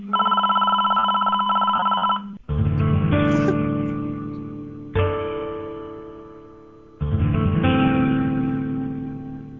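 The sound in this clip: Telephone ringing: loud, continuous electronic rings in four long back-to-back bursts, with no talk over them.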